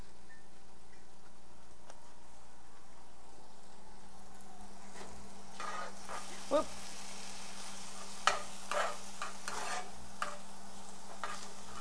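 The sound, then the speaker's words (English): Onions fry in a pan with a faint, steady sizzle. A few soft clicks and taps of stirring come through, and no one speaks. “I can't put too many of these onions in here because I'm going to make it for you, too.”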